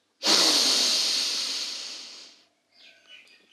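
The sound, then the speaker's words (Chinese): A slow, deep breath drawn for a children's meditation exercise: one long, airy hiss of about two seconds that gradually softens, followed by a few faint, quieter sounds. “再慢慢的吐气出去，深深的吸气，”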